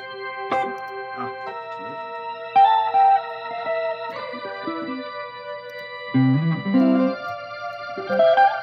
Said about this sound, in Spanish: Play a little bit for the reverb real quick.